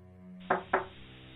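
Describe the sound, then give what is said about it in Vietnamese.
Two dull knocks strike an earthen floor in quick succession, each a short thud over a steady low background tone. “Rồi bất ngờ có tiếng gõ nền xuống nền đất làm cho Chiến lờ mờ tỉnh dậy. Anh đưa hai tay dụi mắt. Tiếng gì vậy hả? Tiếng gõ vẫn cứ vang lên đều đặn.”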